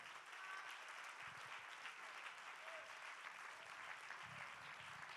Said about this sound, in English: Let's just go ahead and clap with everybody that wants to clap.